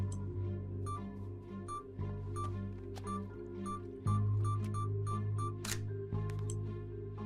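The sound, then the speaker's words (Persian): Camera shutter snapping photos of a staged corpse: a few sharp, isolated clicks over a steady low droning hum, with no talking. “بعدش هم باید از جسدم عکس بگیرم.”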